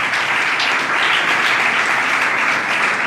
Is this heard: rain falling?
no